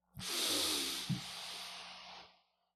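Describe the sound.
A deep inhale during a guided relaxation exercise: one long, airy breath drawn in, rising quickly to a steady soft hiss that lasts about two seconds before fading away.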